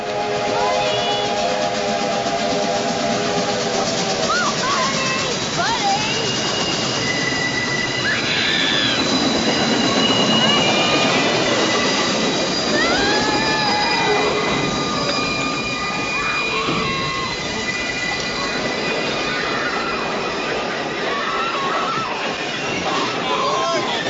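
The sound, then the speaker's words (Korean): A train bearing down on and running over a young man whose shoe is caught in the track, in a film scene. A loud continuous rail rumble carries whistle tones and squealing wheels, with voices mixed in throughout. “빠지지 않는 구두를 아예 벗어버리려고 정신없이 구두끈을 푸는 버디. 하지만 구두에서 발을 빼는 순간 기차는 버디를 덮치고 맙니다.”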